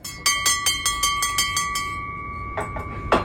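A reception desk bell rings in a small hotel lobby filled with stuffed animals and wood carvings. Many bright metallic dings come in quick succession over a steady ringing tone, then a few softer, separate sounds follow.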